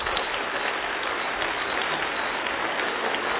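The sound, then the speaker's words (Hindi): An audience at a public gathering claps, a dense and even patter of many hands that stays steady and moderately loud from start to finish. “देखिए, तालियां भी आप बजा रहे हैं ना, उसमें भी 100% नहीं है।”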